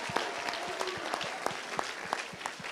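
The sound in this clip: An audience applauds during a sermon with steady clapping and regular, sharper beats roughly every third of a second. The sound is fairly quiet and continuous.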